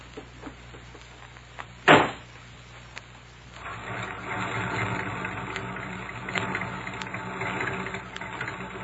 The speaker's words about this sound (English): Well, I have to warm up the motor first.